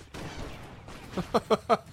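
A red laser weapon fires homing bullets in the video game Broforce, heard as four quick, sharp zapping shots in fast succession after a stretch of noisy game background.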